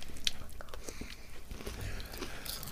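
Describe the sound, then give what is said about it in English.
Chewing a mouthful of cocoa breakfast cereal: faint, continuous crunching and wet mouth noises in an irregular rhythm, with no talk. “It tastes like normal Cocoa Pops. I don't know. I've just had a mouthful.”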